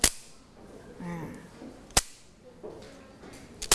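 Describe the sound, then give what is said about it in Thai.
Three sharp, dry wooden cracks from a Thai krap phuang clapper struck against the hand, spaced roughly two seconds apart, each a bright instant snap with quiet gaps between. “เห็นไหมคะอันนี้ก็คือกลับพวง”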